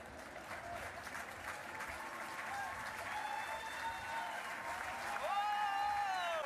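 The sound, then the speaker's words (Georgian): Crowd applause at a baseball game: dense, steady clapping that holds for the whole stretch, with other crowd noise layered over it and growing slightly louder near the end. “არ ვიცი რა მოხდა, მაგრამ ტაში უნდა დაუკრა.”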